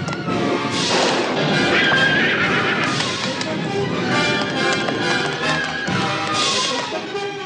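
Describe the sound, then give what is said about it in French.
A horse gallops through dark castle corridors, making a dense, steady clatter of hooves mixed with thumps and knocks that stays loud for the whole stretch. “Le prince Philippe se lança au grand galop à travers les sombres couloirs du château”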